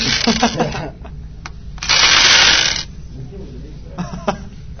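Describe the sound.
Dice rolled during a game, a rattling clatter lasting about a second, set between stretches of talk and a few small clicks.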